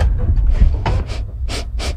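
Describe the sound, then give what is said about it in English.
A person sniffs an unknown object held close to the nose in a guessing game, giving a few quick, airy sniffs that come in pairs over a low background rumble. “Sniff it and then tell us what you think is in front of you.”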